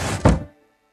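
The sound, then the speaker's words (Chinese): A door pulled open in haste by an elderly father stumbling from bed: a short burst of rustling noise, then a single dull wooden thunk that dies away quickly into silence. “邹屠老爹睡意顿消，他掀开被子，棉袄都顾不上穿，踉跄着就去开门。”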